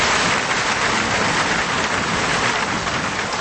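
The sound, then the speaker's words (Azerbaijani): Heavy rain pours down in Baku, a dense, loud, continuous hiss of falling water that stays even throughout, with no breaks and no voices. “Güclü yağış Bakının həm kənardakı yaşayış ərazilərində, həm də elə mərkəzində problemlər yaradıb.”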